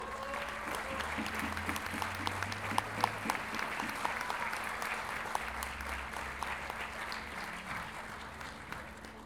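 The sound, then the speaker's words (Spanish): Audience applause at an event of traditional payador improvised verse singers in Lo Barnechea: steady, even clapping from a crowd, fairly faint and continuous throughout. “Recibamos con un gran aplauso a Guillermo Bigote Villalobos.”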